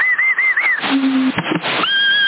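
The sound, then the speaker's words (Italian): Someone whistling over a CB radio channel around 27 MHz: a wavering, warbling whistled tone, then a brief break of radio hiss and crackle, then a steady, higher whistled note, all inside a narrow, noisy radio band. “chi è che ha fischiato?”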